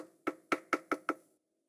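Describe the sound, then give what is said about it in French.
Five quick, evenly spaced knocks on the door of a home, each a crisp rap. The raps are fairly soft and come alone, followed by a brief silence. “frappa à la porte”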